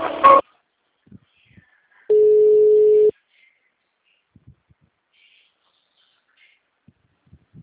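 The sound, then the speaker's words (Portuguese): A telephone tone as a call is transferred: a single steady mid-pitched beep about a second long, set in near silence with only faint scattered clicks around it. “Por favor, aguarde. Estamos transferindo a sua ligação para um dos nossos atendentes.”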